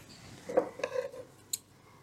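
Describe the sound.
A T-shirt sleeve being cut off: a few faint, short, crisp snips of a cutting tool in an otherwise quiet setting.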